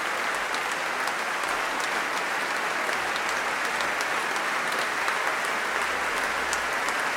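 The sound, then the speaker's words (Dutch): Applause from a concert audience after a performance of French sacred baroque music, dense and even clapping that continues unbroken at a steady level for about seven seconds. “En terecht. Groot applaus.”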